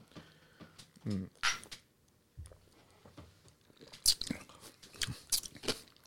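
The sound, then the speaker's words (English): Crisp bites and wet crunching chews on fresh cucumber, a series of sharp crunches in irregular bursts with quieter gaps between them. “A nice taste of cucumber.”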